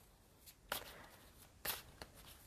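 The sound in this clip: Soft shuffling of a Native American Tarot deck. Two louder riffling bursts stand out among faint papery rustles and small ticks, all fairly quiet.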